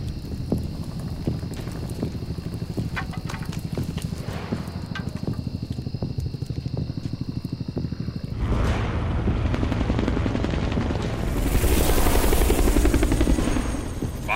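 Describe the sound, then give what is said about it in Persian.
Helicopter rotor chopping in a rapid, steady pulse with a constant whine above it. After about eight seconds it swells into a louder, fuller roar that stays strong to the end. No voices. “صبر کنید، صدای هلیکوپتره.”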